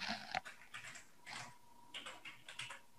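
Faint typing on a computer keyboard as a search term is entered into genomics software, heard as a few scattered, soft keystrokes with small pauses between them.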